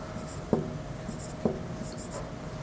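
Handwriting while writing out a Python loop: faint, steady scratching on a surface, marked by two sharp taps about a second apart, with no talk.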